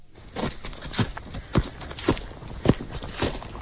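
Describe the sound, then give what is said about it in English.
Crunching footsteps on a gravel driveway at night, a steady series of evenly spaced gritty steps with a coarse, scraping texture, moderately loud with no voices. “Walking on gravel.”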